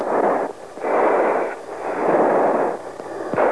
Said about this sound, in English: Okay, he's got a missile off. Breaking right.